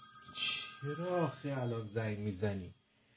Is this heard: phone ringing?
yes

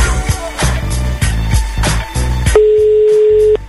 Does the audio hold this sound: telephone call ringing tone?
yes

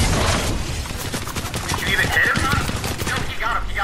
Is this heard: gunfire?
yes

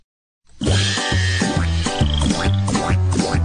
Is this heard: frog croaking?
yes

